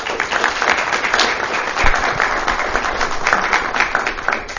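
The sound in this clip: Dense, loud applause from an audience welcoming a speaker after his introduction, a steady rush of many hands clapping that holds at an even level through the whole clip.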